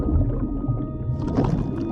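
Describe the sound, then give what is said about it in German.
Underwater water rushing around a diver in goggles: a steady, low rumbling wash with soft gurgling, continuous and fairly loud throughout, with no voices. “Das Wasser fließt um mich herum. Wenn ich mich drehe, bewegt es sich.”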